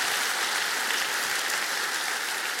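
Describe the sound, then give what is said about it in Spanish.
Church audience applauding during a Spanish-language service, a continuous dense hiss of many hands clapping, steady and even throughout. “Alguien diga, vamos a dar un aplauso, por favor.”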